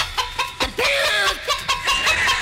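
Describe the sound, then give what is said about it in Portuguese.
Chickens cluck in a busy, uneven series of clucks and short squawks, some with quick pitch glides, rising and falling in loudness throughout. “Solta as galinhas aí, bicho.”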